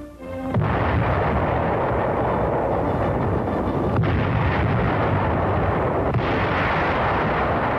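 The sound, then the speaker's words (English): A naval artillery barrage covers wartime beach landings from the English Channel near Cherbourg. A dense, unbroken roar of gunfire and blasts stays loud and steady throughout, with no voices. “Landings are made under a naval barrage.”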